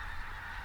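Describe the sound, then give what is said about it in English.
Geese honking, a brief, faint burst of nasal calls, alone with no talk. “This is absolutely beautiful with the noise of the geese.”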